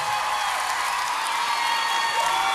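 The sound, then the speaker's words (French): A crowd at a live singing performance applauds and cheers, a dense, steady wash of clapping and crowd noise that holds at an even level throughout. “Du bruit pour Marguerite, s'il vous plaît. Du bruit pour Elena, du bruit, du bruit.”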